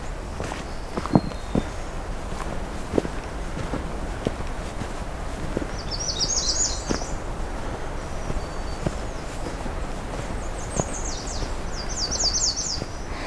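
Footsteps on soft, peaty, bouncy ground under a low canopy on a June afternoon, many steady muffled steps in an even walking rhythm, with a few short bird calls above them.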